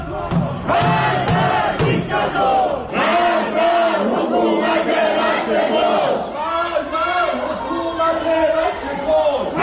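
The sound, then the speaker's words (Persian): Crowd of protesters chanting in Ekbatan, a residential district of Tehran, during anti-government demonstrations: many voices shouting a loud, rhythmic slogan in unison, sustained and unbroken throughout. “صدایی که میشنوید صدای معترضان در شهرک اکباتان است.”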